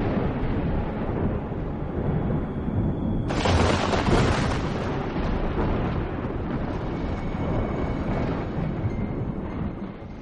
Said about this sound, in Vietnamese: một tia sét đánh thẳng xuống con đê, tạo ra tiếng nổ vang trời, chói lóa cả một vùng